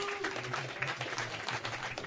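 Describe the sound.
Applause from a live audience at a brewery gathering, a dense and fairly quiet patter of claps with some cheering voices mixed in throughout.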